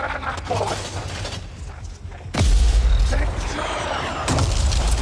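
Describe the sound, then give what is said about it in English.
Mortar fire in a video game: a sudden, heavy boom with a thick rumbling low end that stays loud, then a second blast follows later. “I have time to use that mortar.”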